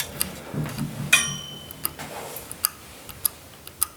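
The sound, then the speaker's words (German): Sharp clicks and ticks from a clock being set by hand, a scattered series of faint, irregular snaps, with a brief metallic jingle near the start. “Und ich kann ja mal kurz die Uhr stellen.”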